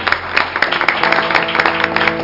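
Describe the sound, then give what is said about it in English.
A church audience claps in praise, many hands beating together in a loud, dense, continuous patter of sharp claps that keeps going without a break. “Let's give Him another hand clap of”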